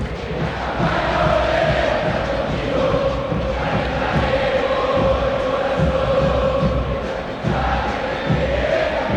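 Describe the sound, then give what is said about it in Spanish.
River Plate fans at the Monumental stadium as the teams come out against Vélez, a huge crowd roaring and chanting in one loud, continuous mass of voices. “Habla el público millonario aquí en el Monumental.”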